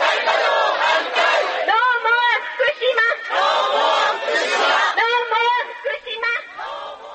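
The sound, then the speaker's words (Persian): Several hundred protesters chanting in unison outside the Japanese prime minister's residence against restarting nuclear reactors and the Fukushima plant, loud rhythmic shouted slogans repeated in waves with brief dips between phrases. “چندین صد نفر در اعتراض به بازفعال شدن این ریاکتورهای هسته‌ای امروز در بیرون از محل اقامت صدر اعظم ژاپن دست به اعتراض زدند و این شعار را تکرار می‌کردند که دیگر مرکز فوکوشیما را نمی‌خواهیم.”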